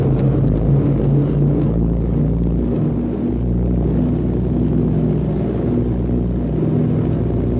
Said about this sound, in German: 3 9-Zylinder-Sternmotoren mit je 650 PS beschleunigen auf sagenhafte 120 Stundenkilometer und dann geht's ab in die Luft.